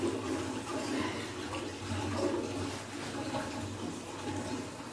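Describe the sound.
Running water pours steadily while hands are washed for the Islamic ablution (wudu), a continuous, even rushing flow with no break.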